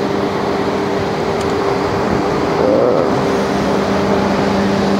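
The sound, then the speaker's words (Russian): A noisy fan gives a loud, constant whooshing rush with a low steady hum underneath, unchanged from start to finish. “секунду я пройду через шумный вентилятор.”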